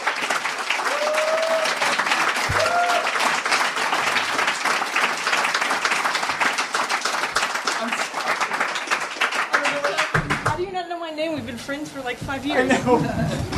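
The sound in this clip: An audience at a writers' panel applauds to welcome a panelist back: dense, sustained clapping holds for about ten seconds, then a voice starts talking.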